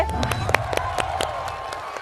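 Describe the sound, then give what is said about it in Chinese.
Audience applause greeting a chef taking the stage at a cooking event: many distinct, sharp hand claps scattered over a bed of crowd noise, fairly even in loudness from start to end. “着急鼓掌是吧？”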